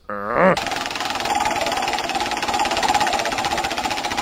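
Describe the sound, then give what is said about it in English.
A prize wheel spins with a rapid, steady rattle of clicks that starts abruptly and keeps up an even, fairly loud chatter until the end. “Why don't you spin the wheel? Let's find out who won. Here we go. I'm gonna spin it.”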